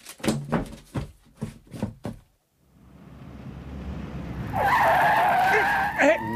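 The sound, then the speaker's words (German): A red Mini car overtaking: engine and road noise build steadily, then tyres squeal in a loud, sustained screech toward the end. “Das war eine Frau in dem roten Mini, die uns unbedingt überholen musste.”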